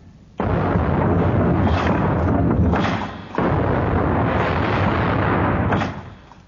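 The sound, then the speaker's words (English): A warship's cannons fire a broadside of red-hot shot in a naval battle: a loud, dense roar of overlapping blasts in two long, rumbling bursts with a brief dip between them. “Open fire, First Division!”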